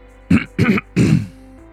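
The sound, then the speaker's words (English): A man loudly clears his throat in three harsh, rasping bursts in quick succession, the last one longest, with no talk and only a faint hum behind. “loudly clears his throat.”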